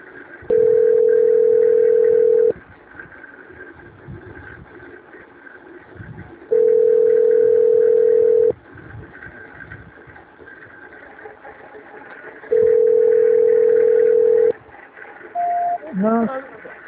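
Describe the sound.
Telephone tone during a call transfer: three long, steady, identical beeps, each about two seconds, spaced by quieter gaps with low background hum. A short higher blip and a quick rising chirp close the sequence.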